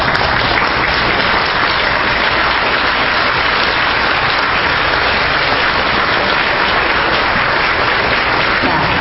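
Sustained applause from a standing audience thanking a priest at a Vietnamese Catholic anniversary gathering, a dense, even clatter of many hands that stays loud for the whole stretch without letting up.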